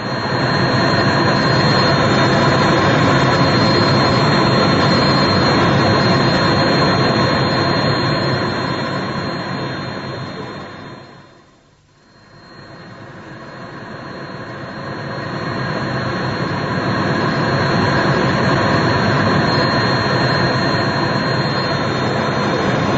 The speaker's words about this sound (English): Just 30 minutes exactly since we took off from Kloten Airport in Zurich, from Zurich Airport, and now as I look down, we can see we're already at the outskirts of Milan.